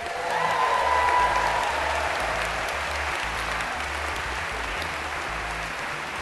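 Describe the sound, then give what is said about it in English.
Audience applause welcoming a guest onto the stage at a live dating game show: a dense, steady wash of clapping that swells slightly in the first second and then holds at an even level, with a faint low hum beneath. “Let's give a warm win-a-date welcome to Benoit Mandelbrot.”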